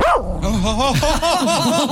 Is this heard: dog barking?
yes